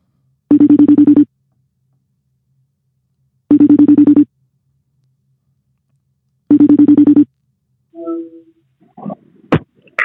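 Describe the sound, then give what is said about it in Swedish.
Ringback tone plays while a phone call is placed to a person: three identical buzzing tone bursts, each under a second long and evenly spaced about three seconds apart, followed by a pause and then a brief voice answering. “Johan Kristoffersson är nästa person som vi ska ta och ringa här. Eh, och eh, förhoppningsvis så, så svarar han också. Vi provar.”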